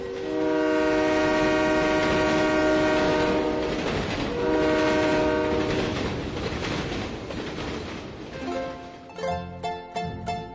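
A freight train carrying migrants through Veracruz, Mexico, sounds its horn in two long, loud, sustained blasts, then rumbles and clatters along the rails without stopping.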